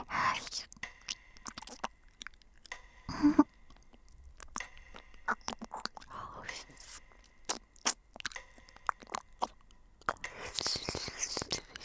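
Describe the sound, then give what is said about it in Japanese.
Ear-licking mouth sounds: many soft, wet smacks, slurps and clicks in an irregular rhythm, with quiet whispering in between. “今度は耳舐めしてあげる。”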